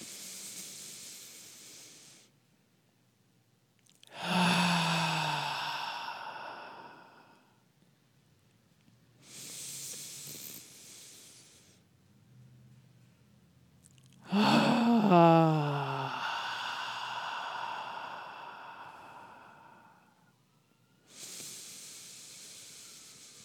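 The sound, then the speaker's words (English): Deep breaths are drawn in through the nose and released noisily during a guided breathing exercise. Airy, hissing inhales alternate with longer, louder exhales that carry a voiced, sighing tone, with quiet pauses in between. “take in three beautiful big breaths in through the nose, hold for the count of two, and release noisily and audibly.”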